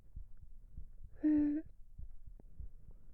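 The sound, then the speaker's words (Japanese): A heartbeat thumps faintly in a rapid, low, throbbing series. A brief steady tonal hum rises midway through. “聞こえる？ドキドキしてるよ、そりゃ。”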